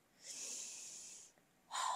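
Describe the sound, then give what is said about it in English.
A person takes a deep breath, heard as two airy rushes of air: the first long and steady for about a second, the second shorter and louder after a brief pause. “Deep breath. Woosah.”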